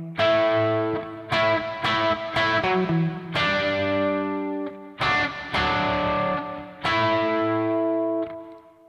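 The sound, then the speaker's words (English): Distorted electric guitar playing a new song section built on an A power chord and nearby notes: loud, gritty chords struck one after another and left to ring, with sharp attacks and heavy sustain. “So what we have here is we have a new song section with a new guitar part that has a new sound”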